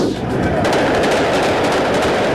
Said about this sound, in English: Gunfire erupts in New York City's Times Square, sending bystanders running for cover.